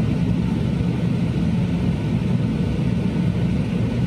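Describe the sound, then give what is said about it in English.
An airplane landing at a research station in Antarctica, its engines making a steady, loud, low drone with a broad hiss above. The sound stays unchanged throughout, with no voices. “Landing at Troll Station, Antarctica.”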